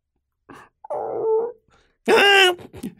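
A dog whimpers in a few high, whining cries, the last one the loudest and longest, with no talk over them.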